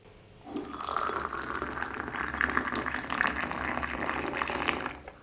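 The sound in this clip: Water coming to a boil for tea: after a short quiet start, a steady bubbling, hissing rush of boiling water sets in and carries on at an even, fairly faint level.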